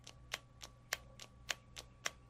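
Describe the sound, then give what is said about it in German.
Faint, sharp clicks of a pen's push button, repeated at a steady, even pace several times in a row, alone over a low background hum. “Außerdem ist bei dem Stift hier das Problem, wenn ich da drücke, kommt die vorne raus, aber wenn ich loslasse,”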